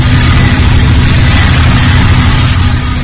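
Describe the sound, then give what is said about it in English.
Ear-splitting compressors on natural gas wells among pinyon pines run with a loud, steady, continuous engine drone. The low rumble holds unchanged throughout with no talk. “Tucked in among the trees are thousands of natural gas wells, about a third of them pressurized by ear-splitting compressors.”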